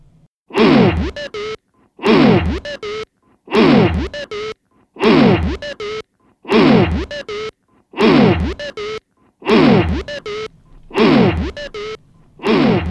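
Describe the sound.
Closing music of an album played from the record: a low, groaning sampled sound loops in nine identical bursts, each about a second long and split by short silences, with the last burst cut short.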